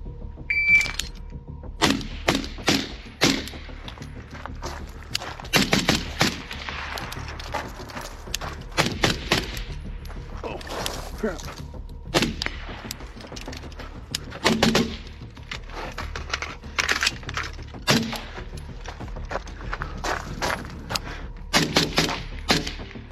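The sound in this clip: Gunfire from a shooting drill at stationary targets, three shots to the torso and one to the head on each: many sharp, loud cracks in quick bursts with short pauses between groups, no talking.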